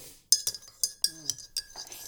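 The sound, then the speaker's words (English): A utensil clinks against a cup as black Keurig coffee is stirred: several sharp, bright taps in an uneven rhythm, each ringing briefly. “I'll have to stir it with the end of this thing.”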